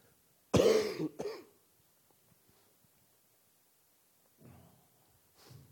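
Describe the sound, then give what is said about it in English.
A person coughs once loudly and harshly, followed by a shorter, weaker second cough. Near silence then follows, with only faint, soft sounds toward the end. “if I do very much more talking, I'm going to start coughing”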